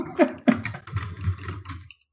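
Typing on a computer keyboard: a quick, uneven run of clicking keystrokes lasting about two seconds before stopping.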